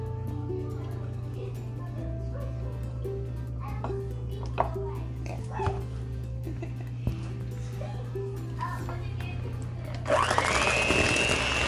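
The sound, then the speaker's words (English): A blender mixes chocolate: a steady low motor hum runs throughout, with a few faint clicks, then a loud, broad whirring surge in the last couple of seconds. “All right, I'm going to blend this up until it's just mixed.”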